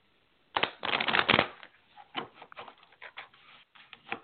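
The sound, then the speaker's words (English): Playing cards are shuffled in a dense, crackling burst of riffling, then several shorter, sharper flicks and snaps follow as cards are pulled from the deck, with no talk. “Let me pull a couple of cards for you”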